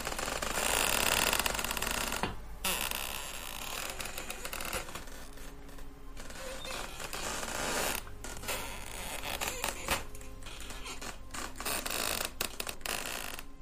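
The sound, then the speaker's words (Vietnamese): Wood creaks and grinds as a coffin lid slowly opens, a long rough scraping that keeps going with a few short breaks. “Tôi nghe thấy có tiếng ken két vọng ra ở đâu đó. Dường như là tiếng đẩy gỗ cứ vặn vẹo, nghe đến rợn cả người.”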